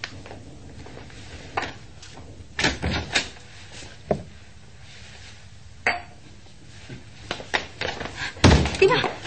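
A door is opened amid a few scattered dull thunks and wooden clatters separated by quiet stretches, with a louder cluster of knocks near the end.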